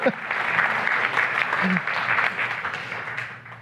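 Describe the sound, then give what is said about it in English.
A church audience applauds, a dense, steady stretch of clapping that holds for several seconds and then eases slightly toward the end. “let's give him one more round of applause so he can awkwardly sit back down”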